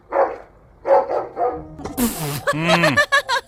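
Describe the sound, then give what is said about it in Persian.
A dog's barks played backwards come out as a series of strange, swelling yelps and whines, loud and harmonic, starting sparse and then crowding together into a denser run of calls toward the end. “این صدای یه سگه که برعکس پخش شده.”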